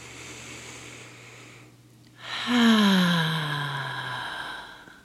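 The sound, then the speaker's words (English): A slow, deep breath in, then a long voiced sighing exhale that falls in pitch, taken during a guided stillness exercise, over a low steady hum. “I would like you to be still for a few moments, noticing your breath as you take long, deep breaths in and out.”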